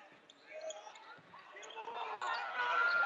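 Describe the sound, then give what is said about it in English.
A basketball is dribbled during a boys' basketball game, with repeated bounces under steady commentary and crowd noise. “He's dribbling, and he gets it across the timeline.”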